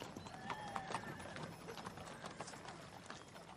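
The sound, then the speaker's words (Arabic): Army horses gallop forward with quick, faint clip-clop hoofbeats that run throughout, and a horse's whinny rises early amid the pounding. “ألا ترى خيل جيش يحيى بن الحسين راكضة نحونا؟”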